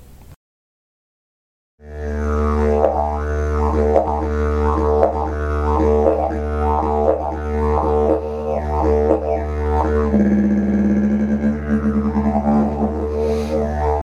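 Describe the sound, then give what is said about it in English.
A didgeridoo, the Australian wind instrument, drones deep and steady after a short silence, its overtones pulsing in a regular rhythmic pattern before the timbre shifts near the end. “The most famous Australian instrument is the didgeridoo. You can easily recognize its sounds. It sounds like this.”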